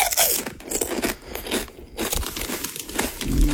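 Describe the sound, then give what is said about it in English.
Crunchy potato chips being chewed, with loud, dense crackling crunches repeating steadily throughout and no speech over them. “Chewing crunchy chips, eating crunchy chips. Yeah, it is. Potato chips.”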